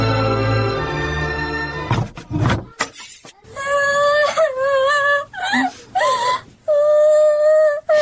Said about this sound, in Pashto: ولې ژاړي لورې څه خبره ده په مکتب کې چا جنجال در سره کړی دی